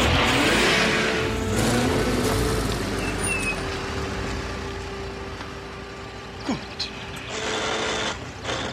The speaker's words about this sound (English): An Aston Martin jerks along a road.